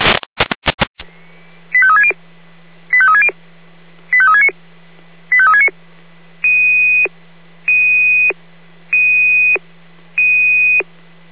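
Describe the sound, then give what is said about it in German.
Fire brigade radio alarm tones: a brief burst of clicks, then four short warbling tone groups and five steady, high beeps in an even rhythm, loud and alone. “Alarm Florian Orlaminde, Orlaminde, L1108, Kreuzung B88 im Bereich Bahnübergang”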